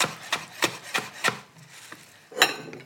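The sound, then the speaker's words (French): Knife chopping mint leaves finely on a board for a pea, mint and feta salad: a few crisp, evenly spaced strokes, a short pause, then one more sharp cut, alone without talk. “Voilà. Les petites feuilles de menthe sont séchées. Et là, pareil, je vais me les ciseler finement. pour bien répartir dans la salade après.”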